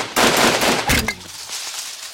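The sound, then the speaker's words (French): A volley of carbine shots fired together: a loud, dense crackling burst, then a second sharp blast and a fading tail. “Quel est l'abruti qui a tiré sur cet arbre? On tire en l'air, pas à l'horizontale!”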